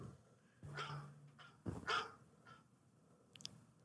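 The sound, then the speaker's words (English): Dogs barking as a recorded alarm sound: a few faint, sharp barks with a brief whine between them, quiet against a low background hum. “Dogs barking at you? Are you trying to tell us that you just got a dog? No, that's just my alarm.”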